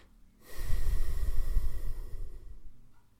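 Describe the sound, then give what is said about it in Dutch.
One slow, deep breath in and out at the close of a guided relaxation exercise, a soft, airy rush of breath that swells and fades over about two and a half seconds. “ik wil je nog vragen om nog één keer heel diep in en uit te ademen.”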